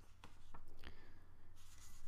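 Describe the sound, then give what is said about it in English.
Paper being folded and pressed down to form a crease, giving a few short, crisp crinkles followed by a longer, steady brushing rustle. “And then press down to make the crease here.”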